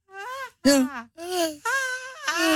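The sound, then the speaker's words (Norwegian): A person screams in panic on a fairground ride, letting out five drawn-out, high, wavering cries separated by short breaks, loud and with no other sounds around them. “og du hører jo de at jeg hyler. Ja, ikke sånn gøy hyling.”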